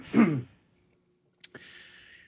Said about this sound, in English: So, you got to clear my throat again.